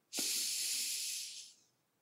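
A single deep breath drawn in during a guided relaxation exercise, heard as a soft, airy hiss that swells quickly, holds for over a second, then tapers away, faint and alone.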